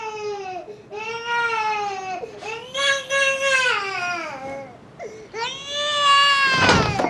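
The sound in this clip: A baby cries after waking: loud, wailing infant cries come in several rising and falling bouts separated by short gasping breaks, growing more intense toward the end.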